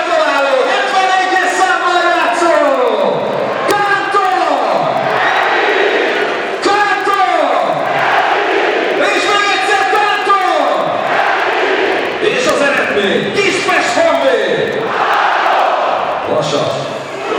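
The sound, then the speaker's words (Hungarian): At a Honvéd football match in Kispest, just after a goal against Vasas, the stadium loudspeaker booms a celebration over the home crowd, which roars back in loud, rhythmic chants with repeated falling calls that hold steady throughout. “És hallhatják önök is a hangos beszélőt, hallgassák csak!”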